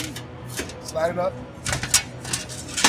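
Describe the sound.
A rusty number plate painted with a yellow 2 is slid up and slammed into a slot on a manual scoreboard, giving a few sharp knocks and clacks while people talk.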